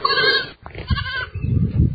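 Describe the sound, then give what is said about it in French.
Goats bleating inside a barn set in woodland in Rwanda that holds about twenty goats: a loud, wavering bleat opens, followed by lower, rougher calls. “Une étable est implantée au milieu d'un boisement. À l'intérieur se trouve une vingtaine de chèvres.”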